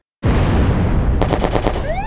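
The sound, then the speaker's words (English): A gunfire sound effect bursts in abruptly and stays loud, with rapid repeated cracks running together in a dense, sustained volley. “Shots fired. Suspect down.”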